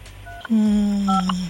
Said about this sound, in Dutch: Kijken wat er gebeurt. Ja, de telefoon gaat over.